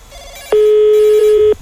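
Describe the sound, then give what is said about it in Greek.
A telephone rings after being called again, a single loud steady-pitched ring lasting about a second that rises out of a faint background and stops abruptly. “Ξαναπάρ' το τηλέφωνο, γρήγορα.”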